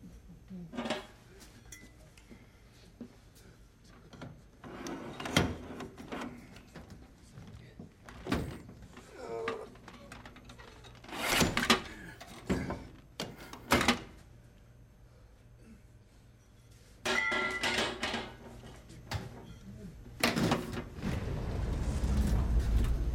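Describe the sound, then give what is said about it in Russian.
A heavy metal pipe is used to slide a door latch shut, producing many sharp metallic knocks, scrapes and bangs at uneven intervals, with a rumbling noise building near the end. “находит тяжелую трубу и выдвигает ей защелку на двери.”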